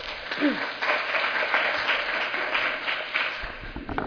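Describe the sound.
An audience applauds to welcome a speaker at an academic public health presentation, with steady, dense clapping sustained at an even level throughout.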